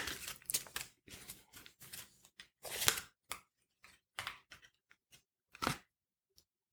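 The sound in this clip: Tarot cards are shuffled by hand in a series of crisp, papery riffles and slaps, some in quick clusters and others separated by short silences, thinning out toward the end.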